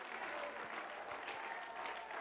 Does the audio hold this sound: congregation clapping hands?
yes